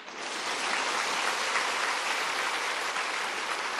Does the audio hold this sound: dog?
no